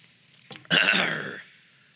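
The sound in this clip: Throat clearing with no speech: a short catch, then a longer, harsh, rasping clear that fades out.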